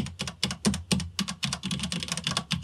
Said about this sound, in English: Yeah, it's not so mechanical click click clickety clack sounding. This actually just sounds like you're smashing keys. Yeah, it sounds more like a keyboard,